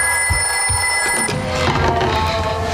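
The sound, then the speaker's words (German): A telephone bell rings with a strange call in a thriller set in the 1950s: a bright, steady ring lasts a little over a second, then gives way to a denser, noisier wash of sound. “bis Alice eines Tages einen seltsamen Anruf bekommt.”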